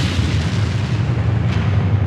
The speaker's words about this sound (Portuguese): O Volks Azul Chapa 445275 saíra da rua Amaral Gurgel e entrara na rua Consolação, parando no sinal. De repente explodiu.